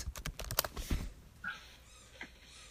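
Typing a search on a computer keyboard: a quick run of crisp key clicks through the first second, then only a few faint taps.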